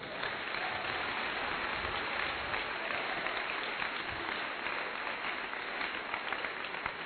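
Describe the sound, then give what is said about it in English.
An audience at a church conference claps their hands in a dense, steady applause that holds at an even level throughout. “You better clap your hands for him.”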